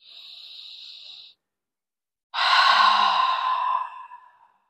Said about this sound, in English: We're going to take 3 deep breaths and pause and breathe out loudly to let go of any stress. Here's our first breath.